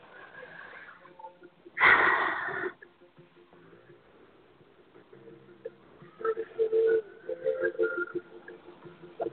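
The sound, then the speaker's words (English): A deep breath is drawn during a guided relaxation session: one loud, breathy inhale of just under a second, then quieter, fainter sounds. “Take a nice deep breath.”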